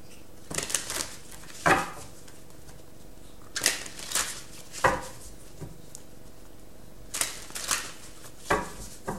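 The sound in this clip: Tarot cards being shuffled and drawn: several short, crisp rustling and slapping bursts of card noise, each separated by a quiet pause, with no voices.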